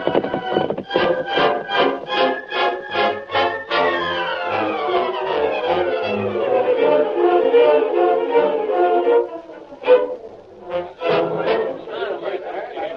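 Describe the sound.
Hoofbeats of horses named Silver and Scout as they are ridden off in a Western drama: rapid, rhythmic beats that run steadily for several seconds alongside sustained tonal sounds.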